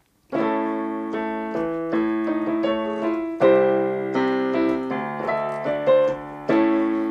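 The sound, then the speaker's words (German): Piano chords play the harmony of a theme, a series of sustained, ringing chords changing every second or so, alone and moderately loud. “Ich ziehe mal kurz das Mikro ein bisschen rüber, weil ich hier das Klavier habe.”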